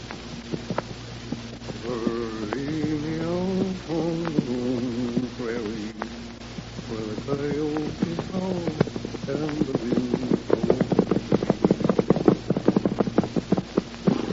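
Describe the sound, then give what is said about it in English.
Horse hooves clip-clopping as a lone rider travels through foothills at night: a steady run of sharp clops that grows clearer and more regular toward the end, with a voice speaking over the earlier part. “In the lonely foothills on the edge of the Circle E, a lone horseman is riding.”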